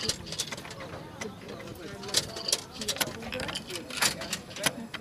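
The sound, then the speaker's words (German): A ticket machine prints a ticket, with rapid mechanical clicking and whirring. People talk over the mechanism. “8.53 Uhr, der Fahrschein wird gedruckt.”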